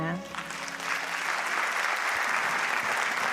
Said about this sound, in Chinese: 谢谢， 感谢，来哟，感谢大家掌声哈